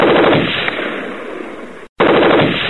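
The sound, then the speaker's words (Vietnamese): Rapid automatic gunfire from a submachine gun on a firing mount in a battle. It plays as a loud, dense, sustained burst that cuts out briefly near the end, then resumes just as hard. “Nòng tiểu liên của Mon nảy bật trên cái thiết bị bắn.”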